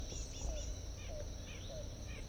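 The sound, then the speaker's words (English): Bird calls recorded outdoors: a few short, faint, descending chirps repeating at an even pace over a continuous high insect buzz. “Start recording bird 4-8.”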